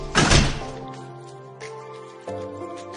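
A door in a house is shut with a single heavy thunk, followed by a short, fading tail. Soft background music continues steadily underneath.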